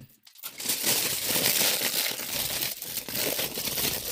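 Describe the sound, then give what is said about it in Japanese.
Aluminium foil is unrolled and torn off, a dense, bright crinkling that starts after a brief pause and runs continuously, fairly loud, for the rest of the moment. “まあ、このアルミホイル。ちょっと使うときはもっと、広く取ろうかなって思うんだけど”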